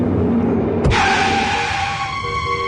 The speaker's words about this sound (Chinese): 一辆出租车赶紧一个急刹车